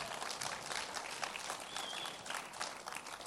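An audience applauds a youth group, with dense, steady clapping from many hands that stays even and continuous throughout.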